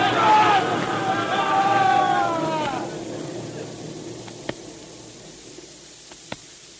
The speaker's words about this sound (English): Hey, hey, what, what's that? The snow. It's it's coming down. Yeah, it's a snow slide.